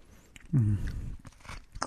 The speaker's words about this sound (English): There's a lot to be said about your standard popsicle. Mm. It's classic. It's delicious. Melts in your mouth. Makes that noise.